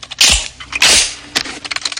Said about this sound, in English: They both step out to open fire through the wide office windows and duck for cover, somehow managing to avoid all the bullets as glass and smoke fills the air.